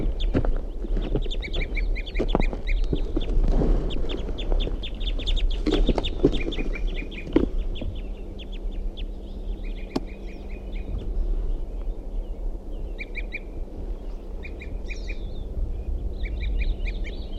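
Sharp, high calls from a male and a female bird back at their nest, coming in quick chattering bursts throughout, over a steady low rumble.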